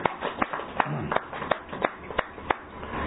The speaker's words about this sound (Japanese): 今日は、ゆきこ先生が69歳を迎えましたので盛大な拍手でお祝いをしてあげ